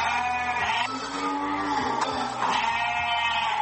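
Sheep bleat continuously at a livestock market on the outskirts of Djibouti city, in the Balbala district. Many overlapping bleats from several animals form a loud, dense chorus with no pause.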